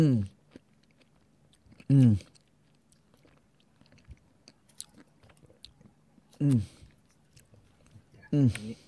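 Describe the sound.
Chewing of a mangosteen fruit taken straight from a crate: faint, wet clicks and crunches run throughout, broken by a few short, loud voiced hums.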